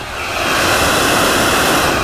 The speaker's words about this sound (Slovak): Na chvíľočku preruším nahrávanie, aby som zachytil zvuk plynového variča,